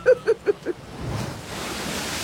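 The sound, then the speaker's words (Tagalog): Water rushing into a room, with four short tonal blips at the start giving way to a steady, broad, hissing rush of flowing water that continues to the end. “Hello, Mang Kanor! Naay tubig nga nisulod sa itong kwarto!”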